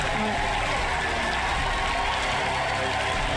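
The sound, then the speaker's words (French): A studio audience gives steady, dense applause, a continuous bright rush of clapping with voices mixed in. “Applaudissements.”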